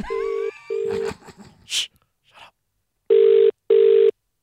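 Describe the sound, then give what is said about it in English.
Telephone line tones sound as a call is placed: two steady mid-pitched beeps, a few faint clicks, then two more identical beeps after a short silence. “Okay, let's call my dad.”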